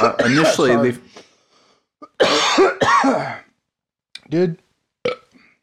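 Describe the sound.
Coughing and throat clearing after inhaling fluid come in several rough, voiced bursts: two longer fits, then a few short, sharp coughs separated by silence.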